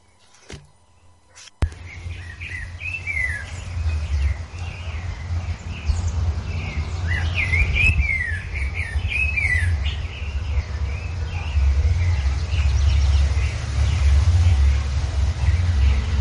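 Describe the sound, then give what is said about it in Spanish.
Several different birds sing and answer one another in counterpoint, trading bright chirps and whistled phrases over a steady low rumble. “Estamos escuchando un contrapunto de distintos pájaros. Vemos como uno le canta y el otro le contesta.”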